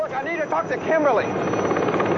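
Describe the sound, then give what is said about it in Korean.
Helicopter rotor noise as a helicopter makes an emergency landing in a film scene: a loud, steady, churning roar throughout, with voices over roughly the first second. “이곳에 한 대의 헬리콥터가 불시착합니다.”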